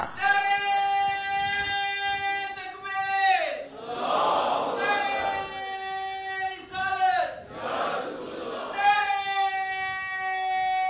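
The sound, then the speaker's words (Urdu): An audience chants a religious slogan in long sustained unison calls, broken twice by loud surging bursts of crowd exclaiming and praise, before the chant resumes. “اس جواب پہ آپ نے سبحان اللہ بھی کہہ دیا, واہ واہ بھی کہہ دیا, نعرہ بھی لگا دیا”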